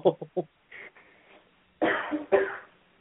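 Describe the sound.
A person coughing and clearing a little fleck from the throat: three quick, short coughs, a faint rasp, then two longer, harsh throat-clearing bursts, with no talk.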